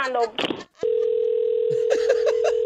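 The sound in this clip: Steady single-pitch telephone line tone heard while calling someone back, starting abruptly after brief talking and holding level to the end as voices speak over it.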